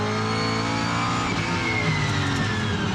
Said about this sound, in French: hop, j'accélère, la caisse part en drift direct